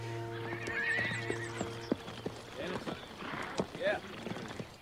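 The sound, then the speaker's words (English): A horse's hooves clop unevenly as it is led back into a Yankee army camp with a body draped over the saddle, with a whinny rising near the end over a low, steady hum. “Cleary leads his steed back into the Yankee camp with Stanton's body draped over the saddle.”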